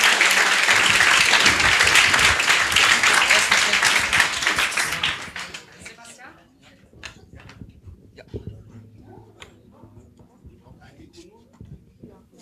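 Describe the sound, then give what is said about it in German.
Audience applause for a team called up on stage, a dense, loud wash of clapping for about five seconds that then thins to scattered claps and small sounds. “Großen Applaus für No Game, No Glide.”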